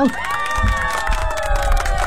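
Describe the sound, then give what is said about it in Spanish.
Crowd cheering and applause make a loud, sustained roar of shouting voices with clapping beneath, holding steady for the whole stretch. “Ese aplauso me lo voy a autodedicar, familia de Radio Disney.”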